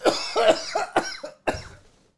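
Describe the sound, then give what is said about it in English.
Coughing in a rough fit of several hacking coughs in close succession, with the last cough after a short gap trailing off into quiet. “I can't be cool Stone Cold when I'm coughing.”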